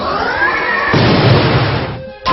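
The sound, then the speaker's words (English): A video game attack effect for a move called Spirit Force: a loud, dense rush of noise that thickens after about a second into a rumbling blast, dips briefly, then returns with a bright hit at the end. “Panderbutt used Spirit Force.”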